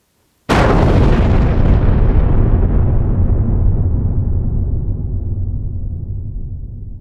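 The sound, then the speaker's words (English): A depth charge exploding underwater: one sudden, loud, deep blast followed by a long rumbling roar that slowly fades over several seconds. “You just heard the submarine's worst enemy. The depth charge. For when those go off, they really explode with a bang”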